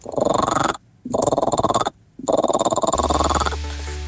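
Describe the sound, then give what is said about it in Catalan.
A human voice imitates a frog's croak in three loud, raspy, buzzing bursts separated by brief pauses, with a low steady hum left at the end. “Granota, eh? Soroll d'una granota.”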